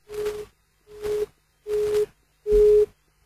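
A telephone busy tone after a call is cut off: four steady, evenly spaced beeps of the same pitch, each about half a second long, growing louder from first to last, with no voices.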